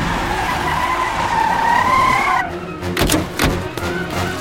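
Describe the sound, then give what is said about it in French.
Tires skid as a Stasi car pulls up in front of a house: a long, loud, wavering squeal for about two seconds, then a few sharp, rough bursts of noise as it stops. “Une heure plus tard, cette voiture de la Stasi débarque devant la maison des Strelzik.”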